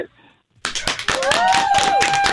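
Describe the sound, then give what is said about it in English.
Clapping breaks out among contestants on a television quiz show after a short silence. A burst of sharp, rapid claps follows, with a voice speaking over them. “Clapping already.”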